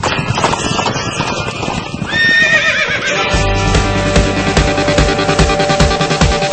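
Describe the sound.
A horse whinnies with a wavering, high neigh over the first two seconds. Rhythmic galloping hoofbeats then take over, with steady musical backing under them until the end.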